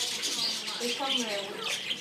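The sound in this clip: Australian parrots squawk in an aviary, a few harsh, scratchy calls scattered across steady, noisy chatter from the flock.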